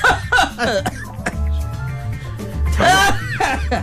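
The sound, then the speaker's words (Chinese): A man coughs in a comic stage sketch set at a hospital bedside. A few harsh, throaty bursts come early, and a longer, louder run follows near the end. “怎么我一打电话他就咳嗽？您冲那边行吗？”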